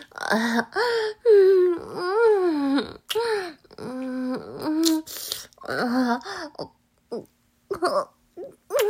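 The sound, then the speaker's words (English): A person's groans and moans during an intimate encounter: many voiced, wavering cries with pitch sliding up and down, loud and drawn out, broken by short pauses and breathy gasps. “I hear those groans.”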